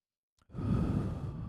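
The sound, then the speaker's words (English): A single deep breath, a short catch followed by a long, steady, breathy rush of air lasting about a second, heard alone without talking. “after we have had this cathartic moment, we're gonna take a deep breath.”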